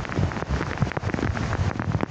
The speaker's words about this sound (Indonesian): Ente percaya ini lagi hujan. Air. Hujan guys, hujan.